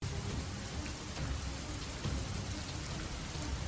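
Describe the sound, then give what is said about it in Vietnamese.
Heavy, cold rain pours down at night on the road home. It makes a dense, unbroken hiss of countless drops that stays loud and even from start to finish. “Giữa đường về, hai mẹ con gặp mưa. Nước mưa trút xuống, lạnh và trĩu nặng.”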